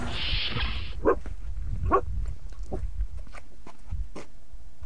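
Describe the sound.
A person imitates a dog barking with a few short, sharp yip-like barks spaced apart, following a second or so of steady loud mechanical whirring at the start.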